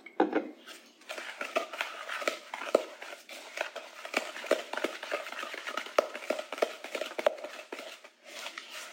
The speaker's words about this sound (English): Half a teaspoon of vanilla is going in. And we'll just mix that in.